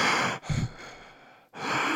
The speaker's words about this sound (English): It's like, you just woken up, mate. Why are you so out of breath?